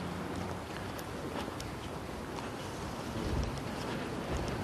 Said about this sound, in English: now I've got the wind at my back again